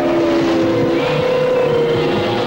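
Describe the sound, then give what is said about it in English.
Racing cars barreling along an empty freeway, a loud, steady engine roar with a sustained tonal whine that holds almost unchanged throughout, with no breaks or talk. “cars barrel along an empty freeway.”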